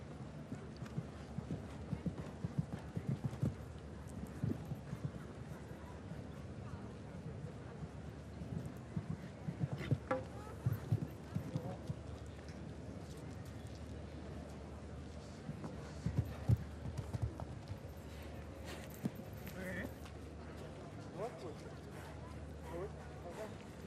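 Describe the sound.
Hooves of an 11-year-old horse in a show jumping derby beat out a rhythmic clip-clop of many steady strides, with people talking over them throughout.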